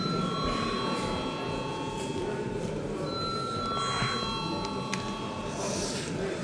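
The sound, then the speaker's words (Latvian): A bell rings in the Latvian parliament chamber ahead of a vote, giving sustained, steady ringing tones over low background room noise. “Paldies, lūdzu zvanu.”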